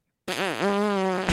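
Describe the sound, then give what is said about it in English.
A voice imitates a fart with a buzzy, lip-blown raspberry lasting about a second, its pitch dipping twice before holding steady, then breaking off abruptly. “Like, when I fart, literally, it's like...”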